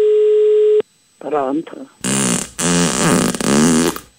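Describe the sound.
A steady telephone tone sounds for under a second while calling a listener at home, then cuts off. Voices follow, first a short burst and then louder, longer stretches of talk.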